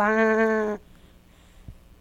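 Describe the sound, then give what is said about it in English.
A single sheep bleat: a loud, buzzy, steady-pitched call lasting under a second, followed by near quiet. “Mommy sheep is called a ewe, and Daddy is a ram.”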